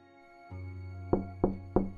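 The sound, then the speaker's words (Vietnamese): Pounding on the door of a rented room: three sharp, loud knocks in quick, even succession over a low, steady hum. “Tiếng đập cửa phòng trọ khiến cho tôi giật mình tỉnh dậy.”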